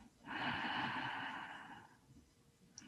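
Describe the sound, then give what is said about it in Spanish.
A single long breath through the nose makes a steady, airy hiss that lasts about a second and a half. It then fades slowly into quiet. “inhalando y exhalando por nariz con toda conciencia inhalando la delicadeza”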